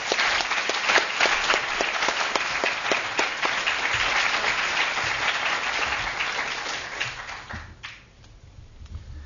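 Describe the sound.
An audience at a London School of Economics evening lecture gives dense, sustained applause to welcome the speaker. The clapping stays steady and loud, then thins and fades away over the last couple of seconds.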